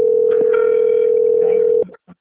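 Telephone ringback tone of an outgoing call: one steady, single-pitch tone holds for nearly two seconds, then cuts off abruptly, followed by a couple of brief faint clicks, with no voices.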